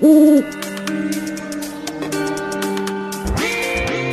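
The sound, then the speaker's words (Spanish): Owl hooting: one loud, low hoot opens, followed by softer sustained tonal sounds that carry on steadily to the end without talk. “Sal al campo por las noches, si me quieres conocer. Soy señor de grandes ojos, cara seria y gran saber. ¿Quién soy? El búho.”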